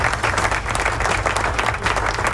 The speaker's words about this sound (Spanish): ¡Aplauso! ¿Dónde están los aplausos?